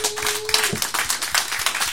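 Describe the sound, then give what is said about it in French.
A live audience applauds at a radiothon event, a brisk run of hand claps with steady rapid rhythm, moderately loud, with a brief voice tone near the start. “Une bonne main d'applaudissement”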